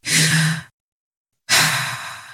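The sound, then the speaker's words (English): A deep breath used as a radio station ident: two loud, airy breath sounds separated by a short silence, with nothing else heard. “Take a deep breath.”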